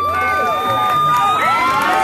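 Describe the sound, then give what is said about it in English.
Wedding guests at a group ceremony in a Tijuana shelter shout and cheer for newly married couples to kiss. It is a loud, continuous burst of many excited voices with high calls. “The audience calls out for kisses.”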